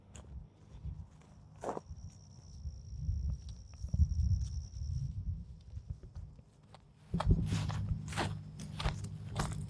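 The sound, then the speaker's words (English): Footsteps on steps leading down to a lake, a few scattered, soft footfalls at first, then a quicker run of firmer steps near the end over a low background rumble. “We're here at the lake for the weekend. Well, for the day. Going down the steps to the lake.”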